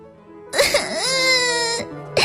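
A child suddenly bursts into tears, letting out a loud, wavering wail that climbs, then holds steady for more than a second before breaking off, with a fresh sob starting just at the end.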